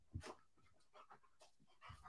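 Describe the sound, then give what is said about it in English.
A dog pants in quick, breathy bursts, one of several energetic dogs after two walks in a day. The huffing is faint, coming in a few uneven clusters of short, airy breaths with brief pauses between. “Dude, these dogs have never ending energy.”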